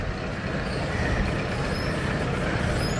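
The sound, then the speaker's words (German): Engine drone of a small old blue diesel locomotive on a miniature railway in a park: a steady, dense rumble with broad hiss and no distinct separate events. “Es ist eine alte Diesellok”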